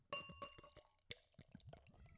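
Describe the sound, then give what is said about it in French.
A beer bottle strikes the rim of a glass with a bright ringing clink among a few softer glassy taps, all faint. “Vous aurez entendu un coup de bouteille de bière sur le bord du verre. Ça, c'est de ma faute.”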